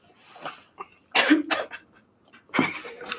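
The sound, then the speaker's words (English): Person coughing: a few rough, breathy coughs in separate bursts, fairly faint, with short quiet gaps between them. “Sorry, I'm coughing.”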